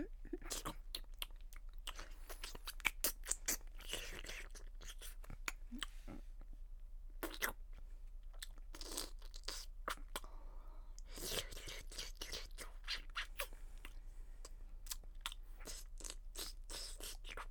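Wet licking and mouth sounds on a silicone toy. Many short smacking and slurping bursts come in an irregular rhythm, fairly quiet throughout, with no talk.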